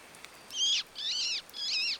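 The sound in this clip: A man imitating a bird call while looking up at trees: three drawn-out, high whistled notes, each wavering and dipping slightly, with short pauses between them, fairly soft against a quiet background.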